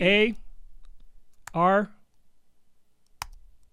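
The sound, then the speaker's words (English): Keyboard typing: a run of faint, quick clicks with two sharper taps, and brief bursts of a voice talking near the start. “This is me typing it down.”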